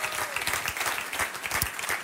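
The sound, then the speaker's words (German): A church audience applauds one another with a dense, sustained burst of clapping and a few scattered sharper claps, at a moderate level throughout. “Hey, wie wäre es, wenn wir uns gegenseitig nochmal einen riesen Applaus geben als Gemeinde?”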